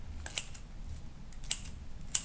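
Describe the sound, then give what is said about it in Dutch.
Scissors snip food in a bowl: a few sharp, crisp metallic cuts at irregular intervals over a faint, low background hum. “Dus wat ik doe is gewoon dit. Ik, ehm, ik knip in de kom. En sommige mensen pakken een snijplank.”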